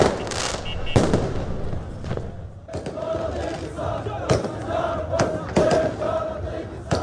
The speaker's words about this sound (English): And here are the sounds of celebrations in the capital, Baghdad, on Wednesday night.